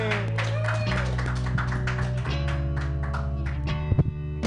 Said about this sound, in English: Put your hands together for Confidence Singh.